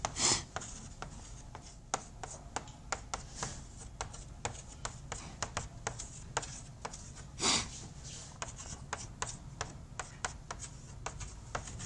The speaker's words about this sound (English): I'm going to write up the equations of motion because we've done these already.